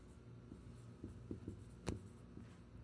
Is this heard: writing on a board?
yes